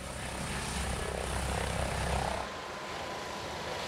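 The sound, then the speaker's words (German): Steady, droning roar of an ADAC rescue helicopter based near Wilhelmshaven that flies emergency missions to the East Frisian Islands. The broad engine and rotor noise holds level, then thins abruptly partway through. “Der ADAC-Hubschrauber Christopher 26 ist in Sande bei Wilhelmshaven stationiert. Er fliegt oft Rettungseinsätze auf den ostfriesischen Inseln.”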